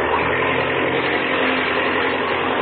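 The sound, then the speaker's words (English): An aircraft engine roars with the throttle opened wide before brake release, a loud, dense, unbroken drone that holds steady throughout without voices. “Now, open the throttle up wide.”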